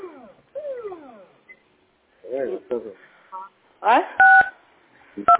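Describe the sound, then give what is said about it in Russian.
Telephone keypad buttons being pressed, giving clear DTMF tones: a couple of loud steady beeps near the end, after stretches of voices talking and some short chirpy sounds. “Вы там нажимаете что-то кнопочки.”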